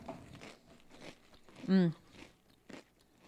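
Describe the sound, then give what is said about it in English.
Pringles potato chips crunch as someone bites into them, one loud, sharp crunch standing out from softer chewing noises. “Pringles have like the right amount of salt. It's a good texture. I like that the potato chips are all consistently shaped.”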